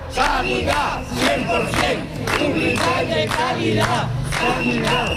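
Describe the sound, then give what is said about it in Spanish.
Protesters outside the Health Delegation in Cádiz, rallying over a shortage of health workers, chant in unison: loud, rhythmic bursts of massed voices repeating a slogan. “Escuchen este sonido.”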